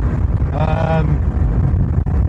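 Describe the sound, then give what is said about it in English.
Low, steady engine and road rumble from a moving East German Trabant car while it is being driven through its gears, a continuous dull drone with no distinct events. “Once you're in first gear and you're moving, you just come off the throttle, put it into second, throttle back down, straight into gear.”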